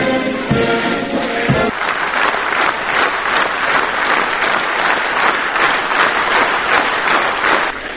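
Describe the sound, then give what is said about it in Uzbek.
Standing ovation from elders and state officials as Turkmen president Gurbanguly Berdimuhamedov enters a hall: sustained, loud, dense applause from many hands at an even level, with a brief voice at the start. “Qurbonquli Berdimuhamedovning zalga kirib, tepadan pastga qarab yurib sahnaga tushishini aksariyati bir xil kiyingan oqsoqollar va davlat rasmiylari 5 minutga yaqin tik oyoqda turib olqish bilan qarshi olishdi.”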